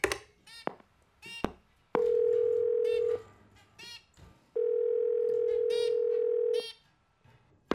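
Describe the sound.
Telephone dial tone: two long, steady, loud tones, one shorter and one longer, separated and surrounded by brief bursts of other sound.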